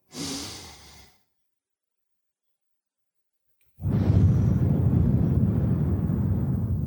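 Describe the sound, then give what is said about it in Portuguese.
A person breathes deeply during a guided breathing exercise: a short breath sounds first, then a silent pause of about two and a half seconds, then a longer, steady, breathy rush that lasts to the end. “Respira. Expira. De novo.”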